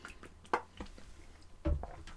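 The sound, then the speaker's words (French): Someone taking a small sip of water: faint, soft wet slurps and swallowing sounds, with a couple of slightly stronger wet pulls among quieter liquid noises. “vais prendre un petit drink d'eau”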